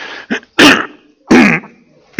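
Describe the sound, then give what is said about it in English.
Throat clearing comes in a few harsh bursts, two loud rasping ones with short weaker catches between them and no speech. “All of a sudden, I got something in my throat.”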